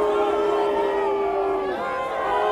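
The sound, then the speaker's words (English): A crowd boos a man during a protest where protesters face off with police, with sustained low jeering voices and overlapping crowd chatter. “He's now getting booed.”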